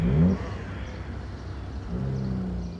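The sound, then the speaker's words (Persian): A car speeds past on a city street, its engine a low rumble with a revving whine at the start and again later, fairly faint and steady between. “ماشین دو با سرعت از کنار عباس رد میشود.”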